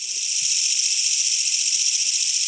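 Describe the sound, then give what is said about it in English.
A simulated swarm of emerald ash borer insects, produced by a gadget, comes through as a steady, high hissing drone that holds at an even level for the whole stretch without pauses. “I can simulate a swarm of Emerald Ashborers, my namesake insects, descending on my target.”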